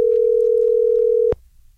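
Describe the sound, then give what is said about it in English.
A single telephone ringing tone as a call is placed: one steady, mid-pitched tone lasting just over a second before cutting off abruptly, leaving a faint low hum. “Let's just call Adam first up and give him the wake-up of his dreams.”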